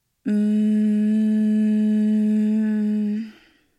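A slow exhale voiced as a mantra: one steady hummed syllable at a low, even pitch, held alone for about three seconds before fading out.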